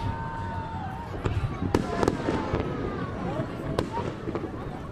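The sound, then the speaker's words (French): Fireworks burst at Lunar New Year (Tet) midnight in a large park in Hanoi, with several sharp cracks and whistling tones over a continuous roar of crowd shouting and cheering. “le début du feu d'artifice avec ce cri collectif des gens comme un soulagement”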